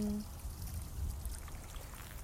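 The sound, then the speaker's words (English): Water trickles steadily in a garden pond stocked with goldfish. The flow makes a continuous, faint, hissy sound throughout, with no talk over it. “the background noise, but I am in a garden by what seems like a water pond”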